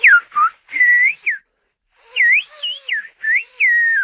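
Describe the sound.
Whistled speech, a French phrase rendered as a whistled language from the Canary Islands. Loud gliding whistled syllables rise and fall in pitch in quick succession, with a short pause midway, and no spoken voice.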